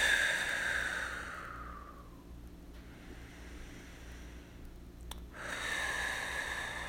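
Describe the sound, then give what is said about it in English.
Deep breaths pushed out through the mouth during a relaxation exercise: two long, airy exhalations, the first fading away and the second rising after a quiet pause, over a low steady hum. “And then take some breaths, relax, and allow it to go. If you need to breathe out through your mouth,”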